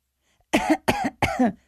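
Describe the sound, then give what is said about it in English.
Three fake coughs come out as short, forced bursts in quick, evenly spaced succession. Each is sharp and breathy, heard alone with no speech. “No, that wasn't a real cough.”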